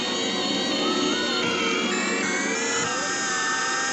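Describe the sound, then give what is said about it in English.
Whirring of a spinning time machine disc: a loud, steady, dense mechanical drone with many layered tones that holds throughout. “The disc behind him spins slower and slower, and the time display stops at January 5th, 1900.”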